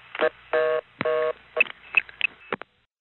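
Touch-tone dialing of a long-distance telephone number, with a wrong digit entered: an irregular run of short beeps and two longer tones, moderately loud, cutting off abruptly into silence.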